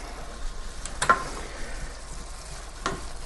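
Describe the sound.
Garlic is stirred through a sizzling dish in a hot pan. A steady frying hiss is broken by a few louder scraping stirs.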